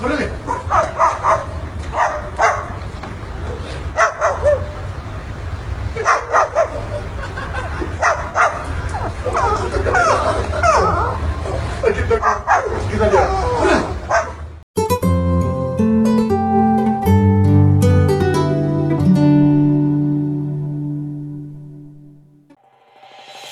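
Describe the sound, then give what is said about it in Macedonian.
A cockatoo imitating the family dog, repeatedly giving bark-like yelps and whimpers over background chatter, then music takes over for the rest. “Во меѓувреме на Facebook, видео од кокату, како го имитира семејното куче, брзо се шири.”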